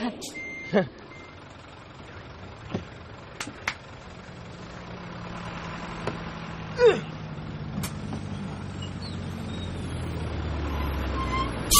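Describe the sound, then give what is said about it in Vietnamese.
A vehicle pulls up as a low engine rumble builds gradually and grows louder, with a few sharp clicks and brief tones scattered over it. “Ơ, xe tới rồi kìa anh.”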